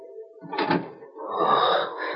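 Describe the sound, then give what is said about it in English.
A room door creaks slowly open in two drawn-out groans, a short squeal followed by a longer, brighter creak, faint and alone without speech. “And the door of the room creaked slowly.”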